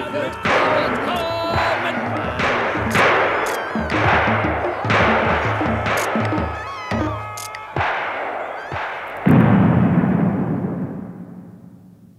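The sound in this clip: A ragged volley of gunfire on command from soldiers breaking up a forbidden ghost dance in a radio drama: many sharp, loud shots spread over several seconds, ending in a long decaying rumble.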